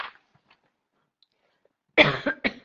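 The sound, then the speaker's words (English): A person coughs a couple of times in quick, rough bursts after a near-silent pause. “and cough. For those of you who don't know, we were passing a cold around on the trip”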